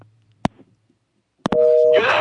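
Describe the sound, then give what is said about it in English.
A telephone busy-type tone after a dropped call: a few sharp clicks, then a single steady mid-pitched tone, then a burst of harsh noise. “We keep getting disconnected. What's going on? We're trying to reach David.”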